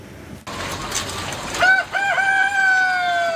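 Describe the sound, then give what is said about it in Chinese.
Chickens at an egg-breeding poultry farm cluck and crow in a loud, steady stream, with a higher drawn-out call rising over the flock after a brief pause near the start. “在石家庄的蛋种鸡养殖场，一台巡检机器人已经上岗，它沿着鸡笼缓缓移动，每经过一笼鸡都要打量一番。”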